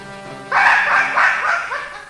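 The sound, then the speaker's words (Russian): A large dog barks on a hunt: a few loud, sharp barks follow one another quickly after a brief quiet start, with no talk over them. “Этот пес мешает мне охотиться! Замолчи!”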